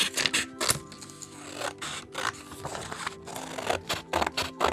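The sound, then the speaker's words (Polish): Scissors cutting white paper strips for a checkerboard-style paper weaving craft: many crisp, short snipping bursts in an irregular rhythm, fairly loud, with no talk. “Wycinam.”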